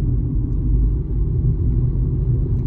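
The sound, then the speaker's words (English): A car drives along with a steady, deep rumble of engine and road noise that holds at an even loudness throughout, with no voices. “Rats, don't look back. Keep driving.”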